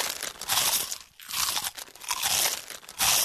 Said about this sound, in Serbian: Mali hrskavi zalogaj, od sada sa novim ukusom lešnika. Njamb banini.